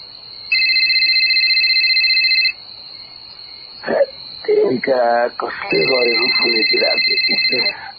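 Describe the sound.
A telephone ringing with a steady, high electronic tone in two long bursts. A brief voice fills the gap between them, and talk-like sounds overlap the second ring.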